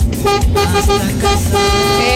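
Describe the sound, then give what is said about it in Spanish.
A car horn honks in a quick series of short, bright toots that repeat over a low, rumbling bed of noise. “Bocinazo de nuestro gran amigo”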